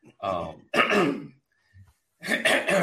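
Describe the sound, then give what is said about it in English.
A person clears their throat in a few harsh, rasping bursts separated by brief pauses, fairly loud. “Talking about that money, we got to clear the throat.”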